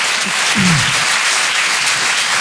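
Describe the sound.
An audience at a live show applauding: dense, steady clapping that fills the whole stretch at an even loudness, with a brief low shout early on.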